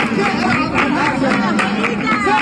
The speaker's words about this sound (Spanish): La Bulería, este es el sonido de anoche a las puertas de la Peña La Bulería.